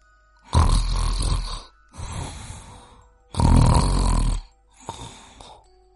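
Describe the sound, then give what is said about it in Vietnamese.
Loud snoring from a prisoner in a jail cell at night: four long, rasping snores in a steady rhythm. Each is a broad, harsh breath with a pause between, and no talk is heard. “Đó chính là tiếng ngáy. Nhưng kẻ nào lại dám ngáy to như vậy ở trong này?”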